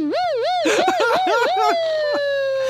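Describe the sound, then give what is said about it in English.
A man's voice imitates a police siren, wailing in quick rises and falls of pitch and ending in a long, slowly falling tone, over a low steady hum. “There's a guy in the background making siren noises.”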